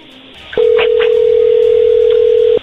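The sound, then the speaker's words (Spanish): A steady telephone tone sounds as a call is placed, one unbroken mid-pitched tone that starts abruptly and holds for about two seconds before cutting off, loud and alone. “Se está marcando.”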